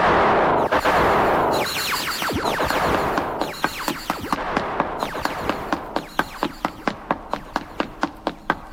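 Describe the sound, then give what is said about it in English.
Gunfire begins with a loud, dense burst of noise, then settles into a long run of many sharp, evenly spaced cracking shots that continue steadily to the end. “You fire, I'll run. Now!”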